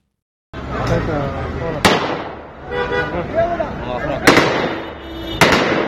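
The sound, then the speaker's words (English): Three sharp rifle shots crack over a noisy crowd outside banks in Afghanistan, where desperate people are trying to withdraw their savings. The loud, abrupt bangs are spread apart, with shouting voices between them. “A common sound outside the banks of Afghanistan. Taliban fighters firing their rifles in an attempt to control desperate people trying to withdraw their savings.”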